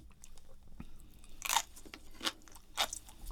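Crunchy biting and chewing of canned pickled daikon radish, a civilian canned food. Three sharp, bright crunches stand out over quiet, softer chewing sounds, with a faint low thump before them.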